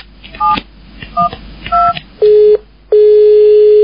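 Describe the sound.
A telephone number being dialed: three short dual-tone keypad beeps, then two longer, steady, lower tones, loud and clean.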